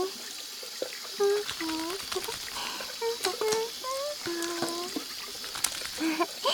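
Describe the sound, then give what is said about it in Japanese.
Running tap water as hands are wetted and lathered with soap: a steady, trickling splash that continues throughout, with a voice talking over it. “僕はこうやって手を水で濡らして、そしたら石鹸で手を泡泡に。”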